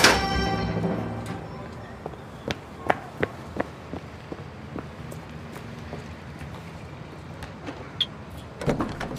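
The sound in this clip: Someone gets into a car: a broad rush of noise at the start, then a scattered series of sharp clicks and light knocks of varying loudness, with a slightly busier cluster at the end and no talk.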